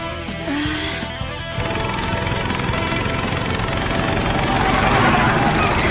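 Racing car engine at full throttle, cornering with the accelerator floored: a loud, buzzing roar that cuts in abruptly after a quieter opening and holds steady, swelling slightly toward the end.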